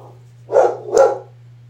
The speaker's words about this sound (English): Now the neighborhood, now the dog across the street's barking.